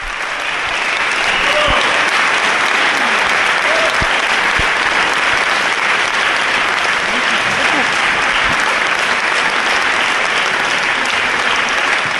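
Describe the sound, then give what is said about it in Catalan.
Dense, sustained audience applause at the end of a concert in the packed church of Sant Miquel de Cuixà during the Festival Casals de Prada. The clapping stays loud and even throughout, with no break. “en l'església de Sant Miquel de Cuixà, plena vessar, el concert ha estat un èxit que s'ha acabat per les aclamacions del públic.”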